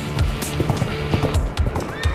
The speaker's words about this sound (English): As Luther and his two companions were riding through thick forest,